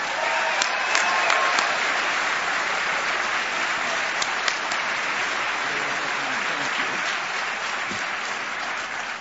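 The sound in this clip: Audience applause welcoming a guest speaker onto the stage at a church gathering, a steady, even wash of many hands clapping that holds throughout with only a few sharper claps standing out.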